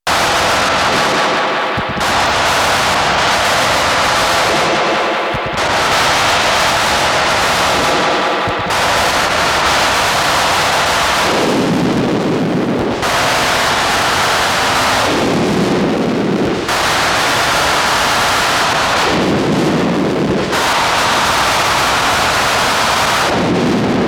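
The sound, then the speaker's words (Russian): Broad, roaring white noise meant to evoke outer space rolls in loud, continuous surges that swell and dip several times, with a rumbling, thunder-like low end and no voices. “это белый шум космоса.”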